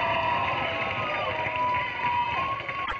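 An audience applauds and cheers as a comedian is welcomed to the stage. The clapping and crowd roar form a steady, dense wash that holds at an even level throughout.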